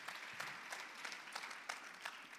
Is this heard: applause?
yes